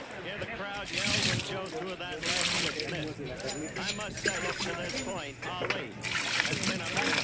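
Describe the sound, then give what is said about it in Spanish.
Water trickling and sloshing as food is rinsed to wash off its salt, a steady wet splashing heard under continuous conversation. “Y ahí la enjuaga para que se le quite toda la sal.”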